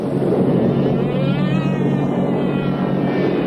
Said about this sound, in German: Nacht für Nacht dröhnen britische Bomber über Deutschland.